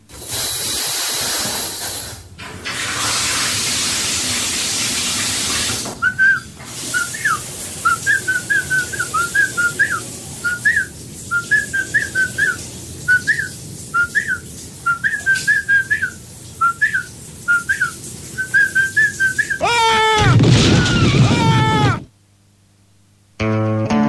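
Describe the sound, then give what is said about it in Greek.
A man whistles a tune in the bath: many short, bright, high notes in a lively, bouncing rhythm, preceded by a stretch of steady hiss and followed by a loud noisy burst. “θα πάμε τώρα να ακούσουμε τι κάνει στο μπάνιο του, τι σφυρίζει”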